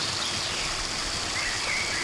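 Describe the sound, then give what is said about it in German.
Water gushing hard out of a tap: a loud, steady rushing hiss that holds constant for about two seconds with no talk over it. “Guck mal, wie das Wasser hier rauskommt, wisst ihr? Das ist nämlich so. Das kommt nicht so lülülülülü raus, sondern das kommt richtig raus.”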